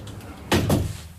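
A stiff, sticking window being pushed shut: two short, dull knocks in quick succession, the second slightly softer, over a quiet background.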